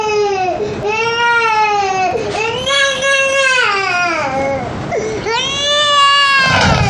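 A baby wails loudly after waking, in a series of long, high cries that rise and fall in pitch with brief catches for breath between them.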